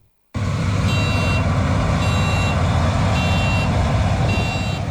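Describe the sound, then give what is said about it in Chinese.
Three driverless combine harvesters working together in a farm field in Heilongjiang, China: a loud, steady engine roar starts abruptly, with four evenly spaced high warning beeps repeating over it. “在黑龙江双鸭山北大荒集团红卫农场智慧农业示范区，三台无人驾驶收割机正在田间协同自主作业”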